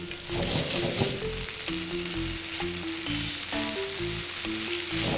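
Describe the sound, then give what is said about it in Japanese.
Blanched thick fried tofu sizzles as it fries in sesame oil in a pan, a steady, continuous crackling sizzle throughout with no voices. “そしたらこのまんま先ほど湯通しした厚揚げを入れていきますね。少しこんがり焼きましょう。”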